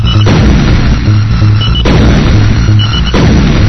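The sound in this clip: Booming shots fire at a ship in a fast-moving video game. Three heavy blasts land at intervals over a loud, continuous rumbling bed, with no voices.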